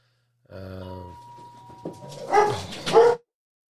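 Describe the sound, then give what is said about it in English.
Dogs barking, opening with a drawn-out tonal whine and then two loud, sharp bursts of barking close together, with no voices over them. “Sorry if you hear the barking, the dogs.”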